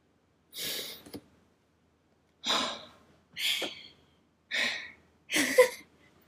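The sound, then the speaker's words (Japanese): Five slow, deep breaths come from a person with a congested nose, each a soft, airy rush of about half a second, separated by quiet gaps, with no talking. “一回深呼吸してみたら。”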